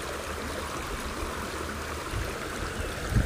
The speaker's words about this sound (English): visualizing this beautiful stream, listening to the sounds of nature